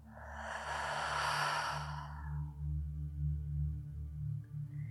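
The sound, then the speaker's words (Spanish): A long breath out through the mouth during a guided breathing exercise, a soft, breathy whoosh lasting about two seconds. It fades over a low, steady musical drone that continues afterward. “Inhala profundo. Si hay algo que ajustar, ajustalo. Y exhala por tu boca.”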